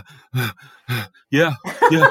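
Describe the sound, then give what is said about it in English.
A man imitates heavy breathing on the phone with a few breathy, voiced gasps and groan-like exhalations in separate bursts, growing longer and more strained toward the end. “any time he answered the phone, any time of day or night, he would always adopt a very heavy breathing policy, like,”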